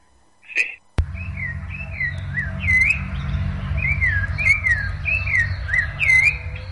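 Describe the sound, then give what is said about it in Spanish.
A thrush singing a series of clear, whistled phrases with quick pitch sweeps, repeated steadily over a constant low rumble. “Ahí está el Sorsalito cantando.”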